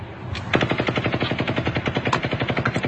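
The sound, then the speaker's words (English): Rapid automatic gunfire near Mandalay Bay, reportedly fired from 32 stories up: a long, steady stream of many evenly spaced loud shots that begins with a softer patch and then runs without pause. “Now, again, you can hear the shots being fired. Does that sound like it's coming from 32 stories up? Sounds awfully close to the vehicle.”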